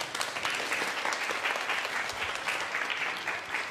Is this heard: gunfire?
no